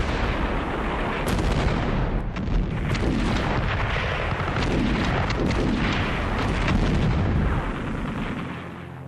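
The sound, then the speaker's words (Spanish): Heavy gunfire as air forces fire on ships at the Bay of Pigs in 1961, a dense, continuous roar of overlapping booms and blasts with no clear gaps. “Sus humildes fuerzas aéreas abren fuego a orillas de la bahía de Cochinos y hunden los barcos anticastristas.”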